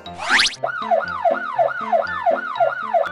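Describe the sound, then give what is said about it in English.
A police car siren wailing in rapid, repeated up-and-down cycles, a loud, piercing tone that sweeps high then low several times a second after a brief rising whoosh. “A police car goes wee-oo, wee-oo, wee-oo.”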